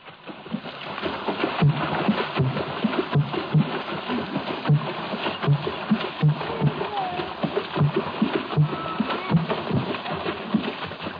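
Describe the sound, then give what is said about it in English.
Water drumming from Gabon with a deep bass effect: a steady rhythm of many low, hollow thumps over a continuous dense wash of splashing, moderately loud and unbroken from start to finish. “that bass effect, in the Gaboon water drumming offers a parallel to the trombone of primitive jazz”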